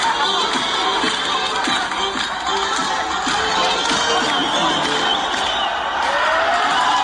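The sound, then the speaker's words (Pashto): Dense, continuous crowd noise from people celebrating a victory in the streets of Herat, Afghanistan, with dancing and rejoicing; a steady roar of many mingled voices runs loud and unbroken throughout. “په هرات ولایت کې هم خلک د دې بریا هرکلی ته راوتلي وو او په لارو کوڅو کې اتڼونه او خوشحالۍ”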